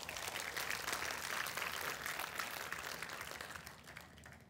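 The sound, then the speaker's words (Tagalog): Congregation clapping in a church during a sermon, a dense, steady patter of many hands that holds an even loudness throughout. “Palakpakan mo ngayon Panginoon.”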